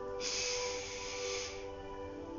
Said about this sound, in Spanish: Inhala profundo.